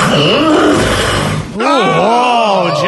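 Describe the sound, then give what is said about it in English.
Loud, strained groaning breaths from a sleeping person struggling to breathe and choking. The moans have a wavering pitch, break off briefly in the middle, then resume in another drawn-out groan. “It's your body struggling to breathe. You realize that? You're choking on your own mouth.”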